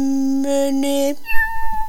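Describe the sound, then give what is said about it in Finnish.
A small cat meows in a drawn-out, steady cry that breaks twice, followed by a thinner, higher-pitched note. “tämmönen pien haisuli. Tämmönen pien kissa.”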